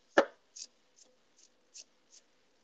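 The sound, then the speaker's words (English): Food being chopped with a knife: one sharp, fuller chop, then five lighter, crisp taps at uneven intervals, all faint with no talking. “Chop, chop, chop. Chop, chop, chop.”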